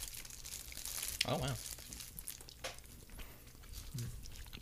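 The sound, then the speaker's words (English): Soft, intermittent crunching and chewing of a ginger-tasting snack eaten close to the microphone, with faint crinkling and one louder bite near the middle. “Remember, eat into the mic.”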